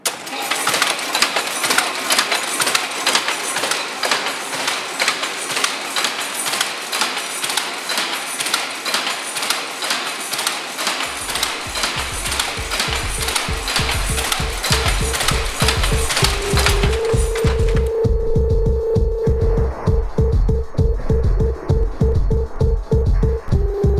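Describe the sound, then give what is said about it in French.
An electric weaving loom clacks loudly as its wooden shuttle with a metal tip passes, in a fast, steady mechanical rhythm throughout; partway through, a droning motor hum joins and shifts in pitch. “Donc, ce qu'on va entendre surtout, c'est le claquement qui est dû au fil de trame qui passe parce qu'il se trouve à l'intérieur d'une navette en bois et au bout métallique. Donc, c'est surtout ça qui va claquer, qui va faire pas mal de bruit.”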